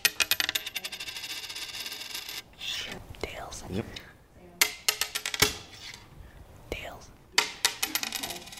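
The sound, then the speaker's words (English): A coin being flipped and landing: metallic clinks, rattles and ringing clatter in several sharp bursts, with soft rubbing and whispery sounds between them. “Roll the tape back to a moment right at the beginning of our coin flip.”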